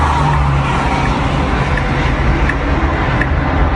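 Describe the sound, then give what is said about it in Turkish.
Continuous loud grinding and skidding as an excavation dump truck, after changing lanes on a motorway, drags and spins a car in front of it, a dense unbroken roar with faint repeated ticks. “Şerit değiştiren hafriyat tırı otomobile çarptı. Önünde sürüklediği aracı topaç gibi çevirdi.”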